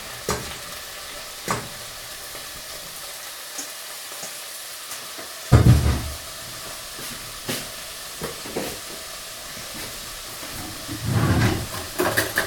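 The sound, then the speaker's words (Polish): Mushrooms frying in melted butter in a pan, a steady crackling sizzle broken by a few scraping stirs, with louder hissing bursts near the middle and at the end. “Wrzucamy do niego pieczarki.”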